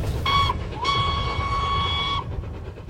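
A departing steam locomotive on a main line sounds its whistle: a short high blast, then a long steady one over continuous rumbling train noise.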